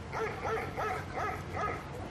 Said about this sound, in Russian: Время от времени кто-нибудь выкрикивал имя мальчика. Ответом служил лишь собачий лай.